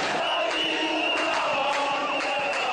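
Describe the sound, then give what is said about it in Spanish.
Roar of a crowd of thousands of protesters rising up in Burkina Faso: a dense, steady wall of shouting voices that holds at an even level for the whole stretch. “Este es el sonido de la rebelión de los pobres, el sonido de miles de ciudadanos del cuarto país más pobre del mundo levantándose contra el poder”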